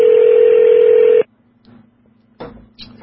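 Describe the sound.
A telephone is dialing a call: a steady, loud tone holds for just over a second and then cuts off, followed by quiet stretches broken by a few faint, short bursts.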